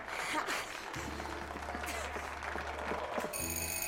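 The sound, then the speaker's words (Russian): A doorbell rings in a Russian comedy film scene, a steady tonal ring with bright overtones near the end, after a stretch of busy background noise and a low hum. “Звонок в дверь.”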